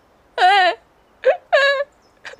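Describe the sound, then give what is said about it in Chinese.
A woman bursts into tears, letting out a few loud wailing sobs: a long opening wail, a short catch, another drawn-out cry and a faint trailing whimper. “女人哇的一下哭出来”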